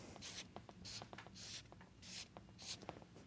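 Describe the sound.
Hand drawing of a diagram, heard as quick scratchy strokes of a pen or marker on a surface, coming in short uneven bursts with small taps between them, fairly quiet and with no talking.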